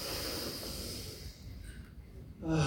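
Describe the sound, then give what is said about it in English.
A crowd at a stage talk takes a deep breath in together, a sustained, airy rush of many breaths that swells slightly at the end. “So, inhale, all together.”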